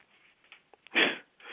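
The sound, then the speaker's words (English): Loud nasal breathing and sniffing from a Tourette tic: a few short, quick sniffs, then one long, forceful breath through the nose, with another breathy rush starting right at the end. “Can you stop all that air breathing? You upset that I'm breathing? Yeah, it's like you about to fly a kite or something.”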